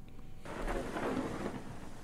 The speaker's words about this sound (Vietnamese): Rồi sấm sét nổi lên ầm ầm, cho đến khi trời đổ mưa.